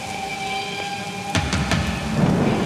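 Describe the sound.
Rain and thunder in a video game: a steady hiss of rain under faint tonal hum, with a few sharp thunder cracks in the middle and a low rumble building toward the end.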